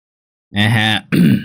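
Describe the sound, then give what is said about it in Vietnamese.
Throat clearing just outside a gate: two short, loud voiced bursts, the first longer and more tonal, the second rougher and more broken. “ở bên ngoài cổng có tiếng hắng giọng”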